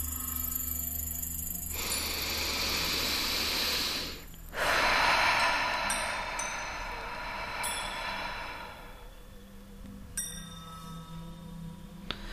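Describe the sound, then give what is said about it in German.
Two long, deep breaths of rushing air, drawn slowly in and let out again during a seated guided breathing exercise, steady and fairly loud with no talk. “setz dich hin, dein Rücken ist gerade und nimm einmal 3 ganz tiefe Atemzüge.”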